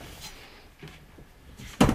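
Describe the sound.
A wheeled cabinet is pulled out after its handle is loosened: a low, soft rolling rumble, then one sharp, loud knock near the end.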